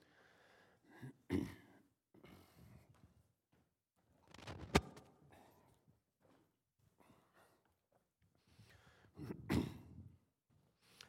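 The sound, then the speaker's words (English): Throat clearing and coughing from allergy irritation, with three distinct rough bursts spaced several seconds apart and faint breathing and shuffling in the gaps. “I feel I have to apologize for my throat. In the last couple of years, the allergies of Florida seem to become worse and worse.”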